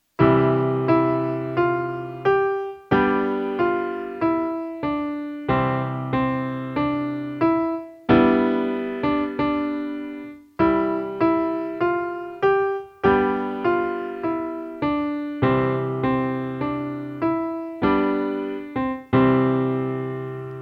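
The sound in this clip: Piano plays a simple melody in the right hand over left-hand chords, one repeated section with many evenly paced notes that ring and decay, a short pause in the middle, no voices.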